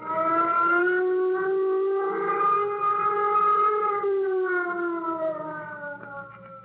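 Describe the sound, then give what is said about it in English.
A flight warning signal siren sounds before a nuclear jet launch: a loud, steady wailing tone rich in harmonics that swells at the start, holds, dips and swells again, then sinks slightly in pitch toward the end, with no voices. “Keep an eye on the observation radar and control course. Sound flight warning signal. Sound flight warning signal.”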